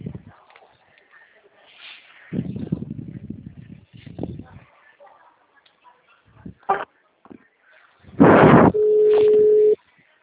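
Telephone line tones during a bank call transfer: scattered faint clicks and noises, then a loud burst followed by a steady held tone near the end.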